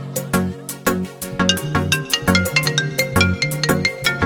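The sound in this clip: A phone ringtone plays a repeating electronic melody during a call. The notes are bouncy and steady and fairly loud, with no voices.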